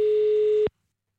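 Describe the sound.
A steady telephone line tone sounds on a failed outgoing call. The single mid-pitched tone is loud and unbroken, lasts under a second, then cuts off abruptly into silence.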